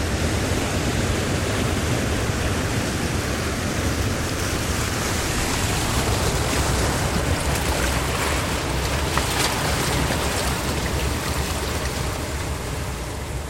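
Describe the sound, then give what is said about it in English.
Ocean waves breaking on a half circle of rocks near Cape Town: a continuous, dense, hissing roar of surf that stays steady throughout, with no distinct single crashes standing out. “there's a sort of half circle of rocks which breaks the, ferocity of the incoming waves.”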